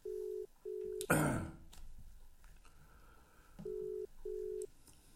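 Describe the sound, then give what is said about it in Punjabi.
Telephone ringing tone as a call is placed: two pairs of steady, low beeps, a short burst of noise between them, then a long pause and two more pairs of beeps, all faint and without talk. “ਆ ਲਓ ਮੈਂ ਉਹਨਾਂ ਨੂੰ ਕਾਲ ਕਰ ਦਿੱਤੀ।”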